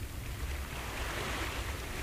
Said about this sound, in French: Les vagues se pressaient, s'écartaient pour frôler les flancs du vaisseau. Elles se refermaient derrière nous dans une rumeur si continue, si cadencée